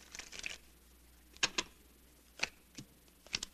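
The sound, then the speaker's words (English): Faint, crisp snaps of playing cards being dealt for a hand of stud poker, a few quick flicks in small clusters against near silence. “Who says you're going to win me? Deal the cards.”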